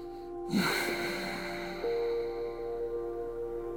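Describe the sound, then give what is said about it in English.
Raspy, constricted-throat yoga breathing drawn in and out through the nose during a morning yoga flow. A breathy, hissing rush swells early and then holds over a steady tonal hum, with no talk. “breathing in and out through the nose. It almost sounds like an H-A ha sound, or if you were Darth Vader”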